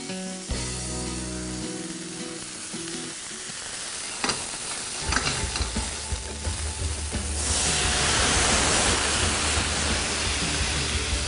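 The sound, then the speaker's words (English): Food sizzles in a hot pan during a flambé with Kentucky bourbon. It begins with quieter clatter, then a steady hiss and crackle grows louder and denser toward the end. “Okay, I get my pan hot.”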